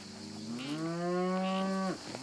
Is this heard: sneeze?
no